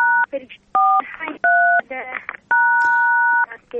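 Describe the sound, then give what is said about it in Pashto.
Four telephone keypad button tones, each a steady dual-pitched beep, sound one after another. The last one is held longest. A voice is heard between the tones. “د بټنو غږونه راځي د تلیفون د بټنو بخښنه غواړم”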